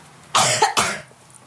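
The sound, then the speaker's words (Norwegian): Throat clearing by a person with a dry throat: two loud, harsh rasping bursts in quick succession, with no talk around them. “nå kremtet jeg”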